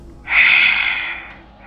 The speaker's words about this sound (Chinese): 那头还是那种喘息声，一下重过一下